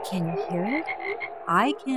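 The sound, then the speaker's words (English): A frog croaks in a few short, rising, nasal calls, with a person briefly speaking alongside. “it's the sound of one of God's smallest creatures, a frog.”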